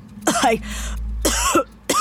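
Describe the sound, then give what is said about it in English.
Harsh coughing and throat clearing from a woman whose health is declining: a few rough, voiced bursts separated by short pauses, the last cut off at the end. “You seen a doctor about that cough?”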